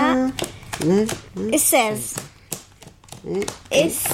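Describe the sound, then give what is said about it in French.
Playing cards are dealt at the start of a betting card game, giving many short, sharp snaps and taps that fall between and under people talking. “Maintenant, c'est à toi de distribuer les cartes.”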